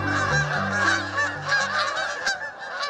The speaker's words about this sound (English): flocks of Canada geese might also have another species called cackling geese mixed in